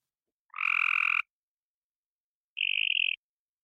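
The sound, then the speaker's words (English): Frog calls mimicked by a mockingbird in North Carolina: two buzzy, harmonic notes separated by a long pause, the first lower and richer, the second a shorter, higher, purer trill. “This is a mockingbird from my home turf here in North Carolina, and we have a different set of frog species.”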